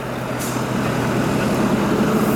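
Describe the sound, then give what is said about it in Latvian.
Low, steady engine rumble of tractors and cars arriving at the Durbe grain pre-processing complex in Kurzeme, Latvia, a continuous droning hum with a faint hiss on top and no clear breaks. “Bez pārtraukuma Durbes grauds graudu pirmapstrādes kompleksā ierodas traktori un automašīnas no dažādām Kurzemes vietām.”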